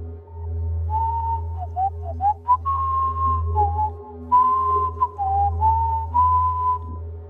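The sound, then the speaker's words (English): A person whistles a familiar folk melody in a basement, caught on a paranormal investigation recording. The clear whistled notes step up and down in a tune, with a few quick runs, over a steady low hum. No one speaks. “They came in and captured, while in the basement, someone whistling, "I've been working on the railroad."”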